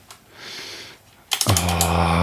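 Computer keyboard typing during a live web search: a few faint clicks at first, then a loud burst of quick keystrokes joined by a steady tonal drone.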